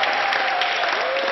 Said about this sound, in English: So that sound you're hearing, that is the sound of the hospital staff cheering David as he left.